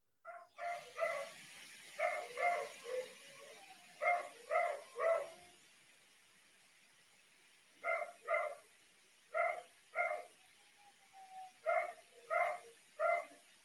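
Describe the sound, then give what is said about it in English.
A dog barks repeatedly and fairly faintly in short bursts of two or three sharp barks, separated by brief pauses and one longer gap. The barking comes in a steady stop-start pattern across the whole stretch. “Oh, I don't know if you can hear the dog barking in the background, but it looks like our sponsor is making a little appearance on the podcast.”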